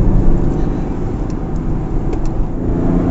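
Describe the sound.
A car pulls away from traffic lights, its engine and road noise forming a loud, steady low rumble that holds throughout without clear breaks.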